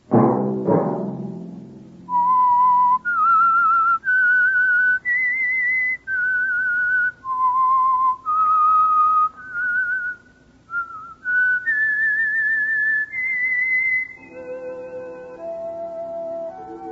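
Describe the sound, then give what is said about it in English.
A clear, high whistled signal tune follows a short noisy burst, with many sustained notes stepping up and down in a steady melody before a softer held tone at the end. “Let that whistle be your signal for the signal oil program, The Whistler,”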